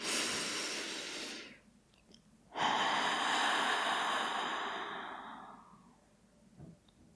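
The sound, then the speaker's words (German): In a guided meditation before chanting Om, a deep breath is drawn in through the nose, then released through the mouth: a long airy inhale, a brief pause, then a longer breathy exhale that slowly fades. “lass uns mit einem tiefen Atemzug durch die Nase einatmen und durch den Mund ausatmen.”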